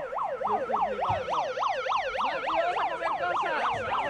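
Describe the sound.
A rapid yelping siren sounds as a cut-price signal at a market-style sale, its pitch sweeping up and down about three times a second. It stays steady and loud throughout, with no voices.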